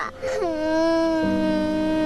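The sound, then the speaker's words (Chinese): A child crying alone, a drawn-out wailing tone that dips in pitch early on and then holds a steady sobbing note. “别哭了。”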